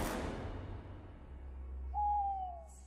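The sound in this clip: A single drawn-out owl hoot in a forest at night, a clear mid-pitched call that sags slightly in pitch toward its end. It sounds over a low, steady rumble, with no other calls around it.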